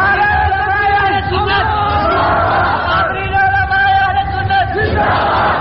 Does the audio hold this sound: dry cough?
no